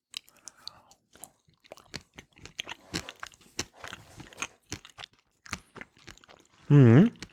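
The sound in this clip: Crunchy chewing of a garlic-seasoned sausage with Roleski mustard: many short, sharp bites and crunches come in an irregular rhythm with small pauses between them, and a louder sustained burst sounds near the end.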